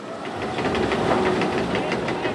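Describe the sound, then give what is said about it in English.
Coal mining machinery grinds through a coal seam at Shea Mine Number 1: a loud, unbroken mechanical rumble with a fast, steady knocking rhythm running throughout and no voices. “Back at Shea Mine Number 1, as we watch the machinery chew through the fossilized plants in this coal seam”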